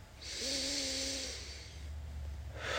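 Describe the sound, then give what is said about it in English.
A long, deep belly breath taken during a tai chi exercise: a soft, airy rush with a faint voiced hum lasting about a second and a half, then quiet, with another breath starting at the very end. “I'm going to have it do circles around my belly button, and I'm going to breathe into it. And really fill my belly with air.”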